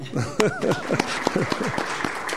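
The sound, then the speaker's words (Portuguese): Applause breaks out in the Senate chamber, crisp claps mixed with overlapping voices calling out, lively and uneven, over a steady background wash. “Se as palmas simbolizarem, é que foi aceito.”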